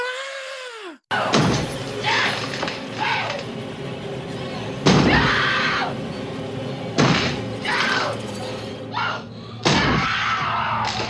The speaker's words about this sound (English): I love Shelley Duvall's terror scream, and we're just like in the bathroom looking at her, and we're also outside the bathroom with Jack as he's just chopping this door down